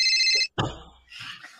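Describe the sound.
A telephone ringing, one bright warbling ring at the start, followed by a brief clatter and softer mixed noise.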